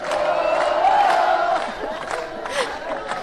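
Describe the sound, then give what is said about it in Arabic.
A concert audience cheers and shouts in reaction to a singer, a sustained, loud roar of crowd noise with whoops and yells that swells and fades slightly throughout. “هذه هو التفاعل مع الجمهور في الحقيقة. يسرى محنوش متفاعلة برشا مع جمهور الكيف وعاملة برشا أمبيونس حلوة.”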